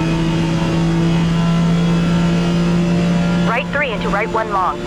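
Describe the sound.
A race car engine drones at high speed in the Forza Motorsport video game, a loud, steady, even-pitched roar that continues throughout, with a voice briefly talking over it near the end.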